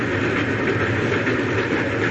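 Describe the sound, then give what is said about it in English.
A train rolls along its rails, heading toward Concord, with a loud, steady rumble and rattle that continues unbroken for the whole clip, with no voices. “For Louisa May Alcott, the train wheels are singing no song of homecoming.”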